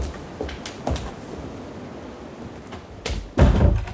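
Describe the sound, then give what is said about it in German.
A door being closed against a draught blowing in, with a few dull knocks and a heavier thud near the end over a low, steady background rush. “Wollen Sie nicht lieber die Tür zumachen? Das weht ja ganz schön rein”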